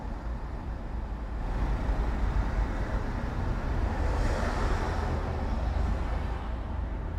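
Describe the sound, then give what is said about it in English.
City traffic heard from inside a car: a steady, loud low rumble that holds without a break and has no distinct events or voices. “That's the sound of city traffic from the inside of a car, roughly 80 to 85 decibels.”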